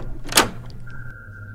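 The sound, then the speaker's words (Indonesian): A toilet door being opened gives a short, sharp burst of noise, then a thin steady tone lingers faintly afterward. “Apa dalam toilet? Aku buka pintu eh.”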